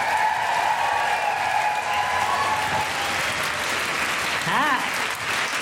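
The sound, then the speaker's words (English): An audience applauds and lets out cheering woohoos to welcome comedian Felicity Ward to the stage at a live show. The clapping is dense and sustained, and a single rising and falling whoop stands out near the end. “And do general woohooing noises for Felicity Ward.”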